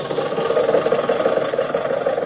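Steady car engine running as the car drives off toward Chicago, a continuous mid-pitched hum with a faint rattling vibration that holds at an even level throughout.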